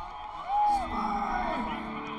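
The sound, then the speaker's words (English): A cartoon crowd cheers, with whooping and yelling voices rising in a short swell near the middle. The cheering then carries on at a moderate level. “Cheer for Spike!”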